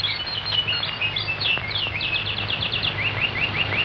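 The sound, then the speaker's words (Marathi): Birds chirping in green woodland: quick, high, repeated chirps in short runs over a steady low background hum, continuing throughout. “त्यांची किलबिल, गाणारे निर्झर.”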